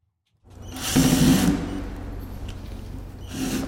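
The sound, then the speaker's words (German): A power screwdriver whirs as the last screws are removed from a wooden crate in a museum hall in Lagos. A buzzing, grinding whine swells loudly, hums on steadily, then surges again near the end. “Ein Angestellter entfernt die letzten Schrauben von der Holzkiste.”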